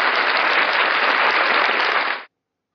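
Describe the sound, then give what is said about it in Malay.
Audience clapping, dense and steady at a strong level, that stops abruptly after a little over two seconds and leaves silence. “Ah, tepuk tepuk sikit tepuk.”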